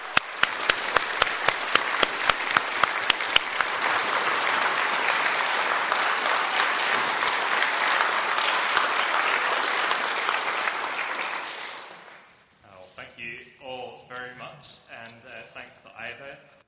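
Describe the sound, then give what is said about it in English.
A church audience applauds to welcome its new minister. A few sharp, separate claps open into loud, dense, sustained clapping that lasts about twelve seconds, then dies away as someone starts speaking. “I would ask you to once again please put your hands together to welcome the Reverend Joe Hall.”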